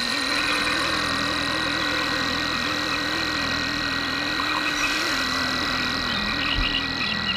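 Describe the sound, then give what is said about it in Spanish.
A rare cricket of arid, salty, white-crusted land stridulates in a steady, high-pitched continuous trill, sounding alone over a low rumbling background hum. “hay un grillo muy especial, un grillo que canta, es muy escaso, que canta estridula en las tierras más áridas, salobres, blancas de sal”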